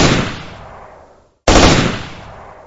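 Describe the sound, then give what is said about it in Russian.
Automatic rifle fire inside a garage bay, heard as two loud bursts, each with a sharp onset and a long fading tail, separated by a brief moment of silence. “Через несколько секунд в проеме показались два силуэта, а затем вспышки пламени из автоматных стволов. По стенам бокса звонко защелкали пули.”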